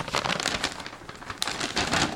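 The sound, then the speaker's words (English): Gift wrapping crinkling as a present is opened, a continuous crackly paper rustle with uneven bursts throughout, fairly loud and with no voices. “Well, we'd like to give you a gift with that. You can open it up here.”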